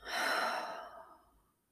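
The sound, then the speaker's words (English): A single slow exhale through the nose during a guided relaxation breathing exercise, a soft airy hiss that swells quickly, then thins and fades away over about a second and a half, heard alone. “One more time, inhale through your nose. Exhale, relax your jaw.”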